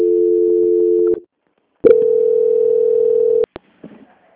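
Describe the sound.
A telephone transfer tone on a bank customer-service call: a steady mid-pitched tone runs about a second, stops for a short silence, then a slightly higher tone holds longer before ending in a couple of sharp clicks.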